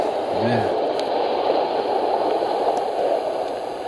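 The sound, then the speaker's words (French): Sea waves wash through a radio show's theme as a steady, loud rushing and churning noise with no clear breaks. “Et ça, c'est le générique de votre émission. Avec la mer.”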